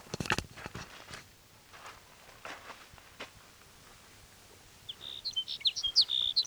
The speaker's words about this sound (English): There's sage sparrow number one.